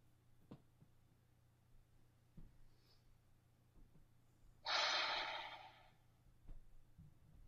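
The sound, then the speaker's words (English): One deep breath, a loud airy rush lasting about a second, stands out from an otherwise quiet stretch broken only by faint scattered clicks and small mouth sounds. “Let me take a deep breath and I'll wrap it up here.”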